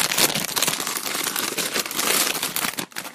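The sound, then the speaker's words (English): A gift being unwrapped, its paper crinkling and rustling loudly and continuously for about three seconds before a brief dip near the end. “This week's episode is brought to you by gifts. I'm going to open one right now.”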